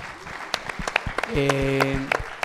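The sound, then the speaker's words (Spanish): Audience applause in a theatre, a dense patter of many hands clapping throughout, with a man's voice speaking over the clapping in the second half. “aprovechando que están aplaudiendo”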